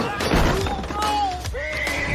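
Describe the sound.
A horse whinnies: a high, wavering neigh that drops in pitch, then a second shorter call, over a steady bed of background noise.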